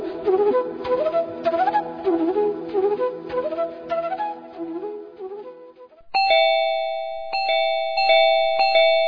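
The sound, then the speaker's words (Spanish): A doorbell is rung over and over, with four bright, ringing chime strikes in quick, impatient succession after a busier stretch of sound. “¿Pero quién timbra como loco?”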